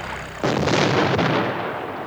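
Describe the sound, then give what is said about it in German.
Cannons fire from the ship Duncan: a sudden loud blast sets off a broad, heavy rumble that holds steady, with a second sharp crack inside it before the roar eases slightly. “Die Duncan! Die Duncan! Sie schießen!”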